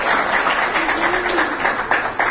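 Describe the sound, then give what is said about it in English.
Round of applause at a debate for a first-time speaker: sustained group clapping with a fluttering, uneven texture, holding fairly loud throughout. “So to start with, I'd like a round of applause for Karthik for doing this the first time.”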